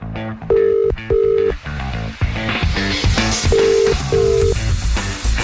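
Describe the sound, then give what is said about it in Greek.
Telephone tones for a call being placed: four short, steady tones in two pairs, sounding under a loud, continuous music bed. “Για πάμε τώρα, σε ποιον καλούμε? Την Όλγα από τη Ματούλα.”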